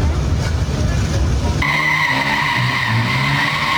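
Tires skid as a car drifts on a city street at night. A loud engine roar gives way to a sustained, high, screeching tire squeal that continues to the end.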